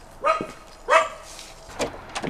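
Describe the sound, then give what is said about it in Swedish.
A small dog barks a few sharp, high yaps at a visitor arriving at a single-storey house. The first two barks are loud and the later ones are softer and quicker. “Vem var det som skällde ut?”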